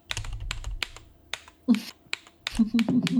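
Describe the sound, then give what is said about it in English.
Computer keyboard typing with a hard press on the shift key: several sharp, separate clicks at an uneven pace, with a voice talking over the later keystrokes. “Wow, my shift key did not like that. Yeah. My shift key really didn't like that.”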